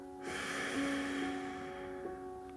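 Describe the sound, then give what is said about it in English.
A slow, deep breath during a guided relaxation session: a soft, airy rush lasting just over a second, then fading, over a steady low musical drone. “First, take a deep breath in and out.”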